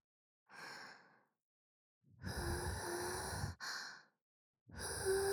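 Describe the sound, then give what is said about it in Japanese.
Slow deep breathing: a few long, airy inhales and exhales, soft and breathy, separated by short pauses, with no talking. “ほら、深呼吸して。”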